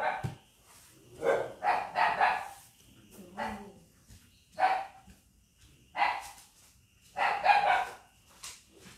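A dog barks repeatedly in irregular bursts, with sharp harmonic barks spaced roughly a second apart, some in quick pairs, fairly loud and standing alone between quiet gaps.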